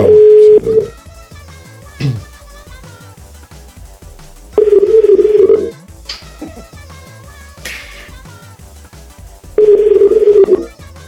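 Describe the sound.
Three unanswered ringback tones on a telephone call, each a steady, mid-pitched beep about a second long, spaced a few seconds apart over a faint tonal background.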